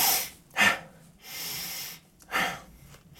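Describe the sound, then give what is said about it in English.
A person demonstrating a breathing pattern with deep inhales and shorter exhales: a few loud, airy, forceful breaths separated by brief pauses, heard alone without talk. “inhale emphasized breathing, making your inhales just a little bit longer or more vigorous than your exhales will speed up your heart rate and will make you more alert. So deeper inhale, shorter exhale.”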